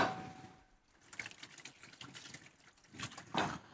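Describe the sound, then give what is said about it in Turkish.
Hands being washed under running tap water: an irregular, hissing splash with scattered drips and trickles, its loudness rising and falling, and a stronger gush near the end. “Bir elimi yıkayayım geliyorum. Sen yıka, hemen ben de geçeceğim.”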